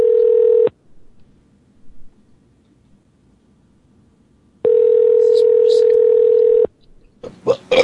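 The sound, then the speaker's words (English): A telephone dial tone sounds loudly in two steady bursts, the first brief and the second about two seconds long, as a phone call is hung up and redialed. Quiet gaps separate them, and a few short dialing tones follow at the end. “I'm going to hang up and ring you right back.”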